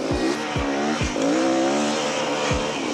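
A race car's engine and tyres sound on its second lap, a loud, continuous high-revving engine whose pitch climbs and then drops abruptly several times as gears change, with a raspy tyre-and-road noise underneath and no voices.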